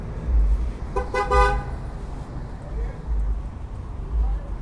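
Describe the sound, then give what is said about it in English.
Urban street traffic in the Bayview Hunters Point neighborhood, with a car horn honking briefly near the start over a steady low rumble of vehicles. “The streets are urban, often deserted, and they might sound like this.”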